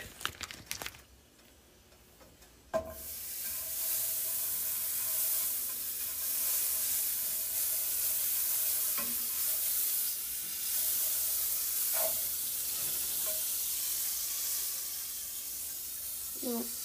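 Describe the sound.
Butter sizzles in a hot pan warmed for burgers and has turned brown and burnt. After a sharp clatter a few seconds in, a steady bright hiss sets in and runs on with scattered faint crackles.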